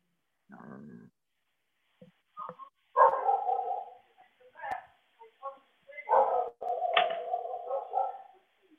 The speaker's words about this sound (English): Are you at home and there's dogs jumping up?